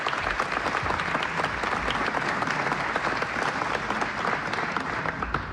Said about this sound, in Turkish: Alkışlar devam ediyor ve huzurunuza Şef Mehmet Erenler geliyor efendim.